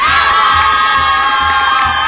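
A crowd cheers and shouts in a loud, unbroken roar that holds steady for about two seconds, with a faint low pulse repeating beneath it.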